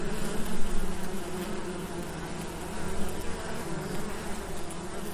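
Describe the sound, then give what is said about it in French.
Honeybee workers and drones buzz on the frame tops of an opened hive during a beekeeper's inspection. Many wings make a dense, steady drone that swells and eases slightly, with no voices over it. “Voilà, des ouvrières sur les têtes de cadre. Ici, un mâle, il est un peu plus trapu.”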